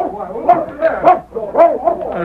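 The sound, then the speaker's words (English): A dog barks after being released to chase someone down, giving a run of about five excited, high, yelping barks and yips in quick succession, loud and close together, with a brief pause midway. “Let your dog go. Get him, boy.”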